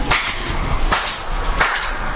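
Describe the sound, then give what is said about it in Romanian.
Hand clapping: three sharp, evenly spaced claps cut through a steady background hiss. “Cum îți chem sclavii? Bate din palme.”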